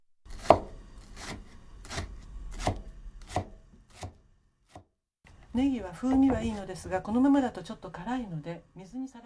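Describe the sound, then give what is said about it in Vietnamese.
A knife slicing leeks thinly into rings makes a steady series of crisp, evenly spaced chops, followed by a person talking. “Cuối cùng, chúng ta sắc hành baro. Hãy sắc thật mỏng thành những vòng tròn.”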